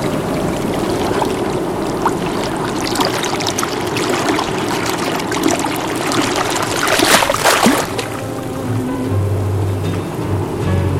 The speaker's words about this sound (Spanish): me mandó ese audio de una parte rocosa de la costa de la Paloma Rocha. Che, para los que están escuchando, nosotros queríamos escuchar hoy el sonido del mar.